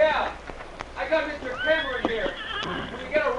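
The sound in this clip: A horse whinnies as it is reined up on a riverbank, its high, wavering neighs rising over a man's voice that talks throughout.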